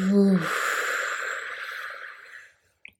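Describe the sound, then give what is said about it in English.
A slow, deep breath during a guided relaxation, heard mainly as a long, soft, airy exhale that fades to silence. A brief voiced hum comes just before it. “enjoying a last deep full breath in and a deep breath out”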